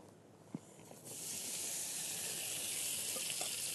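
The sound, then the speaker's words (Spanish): Marinated fajitas frying in a pan on high heat: a brief tap, then after about a second a loud, steady sizzle and hiss that holds to the end. “Y ponemos las fajitas que ya han marinado. Lo ideal es marinar esto unos 15, 20 minutos que ya han marinado. Las ponemos a sofreír.”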